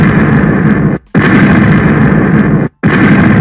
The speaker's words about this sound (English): Let's give her a bomb. Let's give her. No, three bombs.